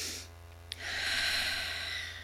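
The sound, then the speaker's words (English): People take a slow, deep breath together, heard as a faint, steady hiss of inhaling that swells after a tiny click and then holds, with a low hum underneath. “Everybody, take a deep breath again.”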